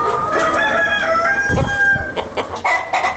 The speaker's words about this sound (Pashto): د غزنی ښار په غیبی کلندر سیمه کې د لږ ډیر 400 چرګو چرګانو فارم